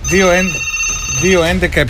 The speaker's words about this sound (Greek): Να σηκώσουμε το τηλέφωνο